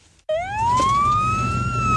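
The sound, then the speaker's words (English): A fire engine siren cuts in suddenly outside a house and holds a loud, rising wail that climbs in pitch and then levels off, with no voices. “Fire engine turns up outside the house.”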